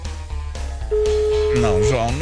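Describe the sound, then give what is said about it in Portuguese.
A telephone rings during a radio call-in prize draw: a single steady, mid-pitched tone holds for about a second while a voice talks over and after it. “são 5 toques para o João. Já estamos no terceiro já. Completou rápido hoje. Quarto toque.”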